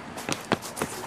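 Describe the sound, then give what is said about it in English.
Footsteps crunch on dry autumn leaves. Three short rustling crackles are evenly spaced and fairly faint over a quiet outdoor background. “It's the sound of leaves. It's the autumn. Leaves.”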